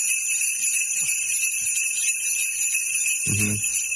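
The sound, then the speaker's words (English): Christmas sleigh bells jingle in a steady, bright, high shimmer that runs through the whole clip without pause, joined briefly near the end by a low murmur. “It's sleigh bells or bells.”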